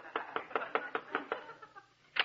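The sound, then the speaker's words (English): Knuckles rap on the door of a modern house in a quick, even series of about seven firm knocks, then a few softer ones, and a final louder rap after a short pause. “I'll knock on the door. I guess this is the door.”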